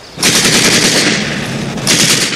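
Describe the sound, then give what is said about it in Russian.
Machine gun fire as soldiers try to cross a ford: sustained rapid bursts of loud, harsh crackling that run almost unbroken, dip slightly, then surge again near the end. “Немцы пытаются перейти брод, Женя стреляет в них.”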